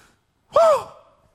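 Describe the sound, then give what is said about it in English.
A voice imitates heavy, excited breathing with a single short, loud, breathy gasp whose voiced pitch arches up and then down; it is heard alone and lasts under half a second. “I would just start breathing heavy and yelling,”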